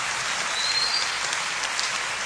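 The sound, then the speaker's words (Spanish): Applause from a church audience: a dense, steady wash of clapping that runs loud and even for the whole stretch, with no voices over it. “¿Se quiere aplaudir? Sí.”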